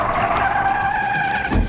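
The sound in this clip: A race car skids with a loud, sustained, high-pitched tire squeal that runs steadily throughout, joined by a brief low rumble near the end.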